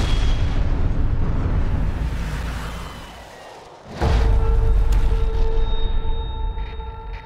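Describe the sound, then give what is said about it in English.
Artillery fire explodes in a war drama about the Battle of Long Tan: a continuous loud, deep roar that eases briefly, then a sharp blast near the middle sets the heavy rumble going again. “He wants me to target his position. If you don't drop in the next 30 seconds, we'll all be dead. We can't allow this. Major's the commanding officer in the field. He'll make the call. Call it in. Fire!”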